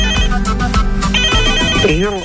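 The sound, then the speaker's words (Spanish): Telephone ringtone signalling an incoming call during a call-in program: a loud, repeating electronic tone pattern with bright, steady pitches. “¿Tenemos una llamada?”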